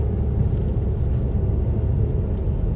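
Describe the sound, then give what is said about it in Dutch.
Low, continuous rumble of a car driving on a busy road in rush-hour traffic heading toward Rotterdam, a steady droning road and engine noise without pauses. “Nou ja, ik zit gewoon in de spits te rijden. Dus het is, het is gewoon druk.”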